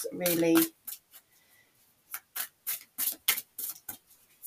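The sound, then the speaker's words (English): A tarot deck gets a final shuffle: a longer rustling burst of cards, then many short, crisp card snaps and taps in an uneven rhythm. “Just giving it a final shuffle.”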